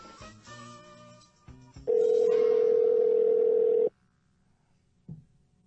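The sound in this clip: An outgoing telephone call rings on the line, heard as one steady, loud, level ringback tone lasting about two seconds, then near silence.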